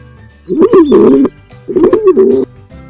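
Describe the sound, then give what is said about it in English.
Pigeon cooing in two low, throaty phrases separated by a short pause, each a warbling, loud call heard on its own. “Pigeon.”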